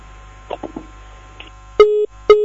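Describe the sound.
Telephone busy signal after a call to a radio call-in line is cut off: a few faint clicks, then two short, steady, evenly spaced beeps, the second one cut short.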